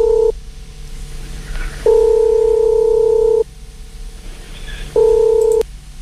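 Telephone line tone while a call is placed: steady buzzing tone bursts, three in all with the first cut short, separated by pauses filled with low background hum.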